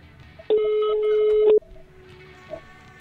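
A telephone number is dialed for a live radio call-in, heard as one steady electronic tone lasting about a second, followed by a faint low hum and a soft blip.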